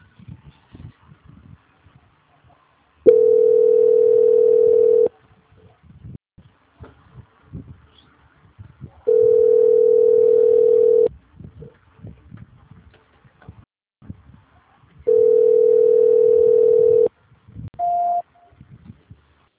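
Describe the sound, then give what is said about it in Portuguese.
Telephone tone during a call transfer: three steady, even-pitched tones of about two seconds each, spaced regularly, then a brief higher beep at the end, with faint low noise in the gaps. “Só um minuto, por favor, que eu vou transferir a sua ligação. Ok. Transferência.”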